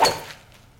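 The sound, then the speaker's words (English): A golf driver strikes a teed-up ball on salt flats, making one crisp, sharp impact at the very start that quickly fades into quiet. No one speaks. “So you tee it up and hit the driver.”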